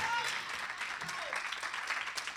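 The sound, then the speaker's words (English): A church audience gives a hand clap of praise during a sermon. The scattered clapping is fairly faint and mixes with a voice speaking over it. “can you take about 4 seconds and give God a hand clap of praise?”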